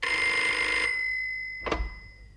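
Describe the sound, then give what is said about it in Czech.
A telephone bell rings once in a shrill, bright burst lasting under a second. A short quiet follows, then a brief low clunk. “Telefon je naštěstí uprostřed.”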